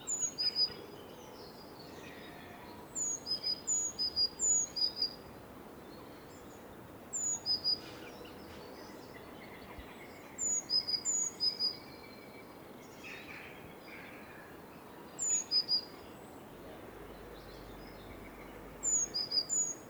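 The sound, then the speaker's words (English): A tit calls in short bursts of a high-pitched two-note motif, each phrase repeating rapidly several times, with quiet pauses between the bursts over a low background hiss. “So this is a classic kind of tit sound, high-pitched. It's one little motif.”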